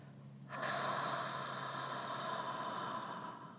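A silent, whispered 'ha' exhaled through the mouth: a soft, breathy hiss that starts abruptly, holds for about three seconds and eases slightly at the end, quiet and without voiced tone.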